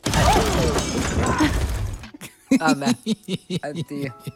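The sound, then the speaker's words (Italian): A glass bottle falls and shatters, making a dense, noisy crash that lasts about two seconds. A person starts talking as the crash ends. “Anche una bottiglia, perché ho sentito il rumore di vetro.”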